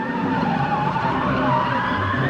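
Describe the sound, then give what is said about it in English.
A loud, continuous roar as a car speeds off down the road, the engine and road noise dense and steady throughout with no break. “the woman somehow gets into the driver's seat, gets her handcuffed hands in front of her, and roars off drunkenly down the road.”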